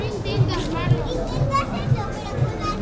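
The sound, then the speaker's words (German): Children playing between restaurant tables in the harbour lanes of Ibiza at night: lively young voices and shouts over a busy crowd murmur, with a regular low thump pulsing about twice a second. “Kinder spielen zwischen den Tischen der Restaurants.”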